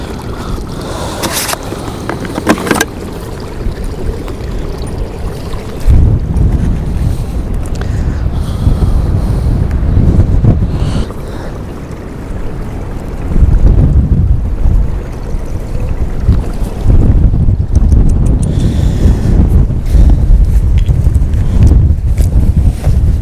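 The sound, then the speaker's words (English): Wind blows outdoors and buffets the microphone with a loud, low roaring rumble. It swells and eases in gusts throughout, with no one talking. “I'm just going to wait for a quiet moment in the wind.”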